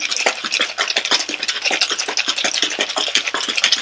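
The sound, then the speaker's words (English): Ice rattling hard inside a cocktail shaker as a drink is shaken: a loud, continuous run of rapid, rhythmic clattering hits with no pause from start to end. “Right, I'm now going to shake.”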